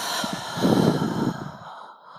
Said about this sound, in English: So you breathe out all the way.